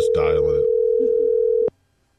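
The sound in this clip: A steady telephone dial tone hums after dialing, with a voice briefly talking over its start, then the tone cuts off abruptly into silence.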